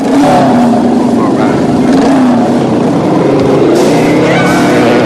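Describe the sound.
Motorbikes revving and speeding off down a walkway toward beach steps, a loud continuous engine roar with wavering, shifting pitch throughout.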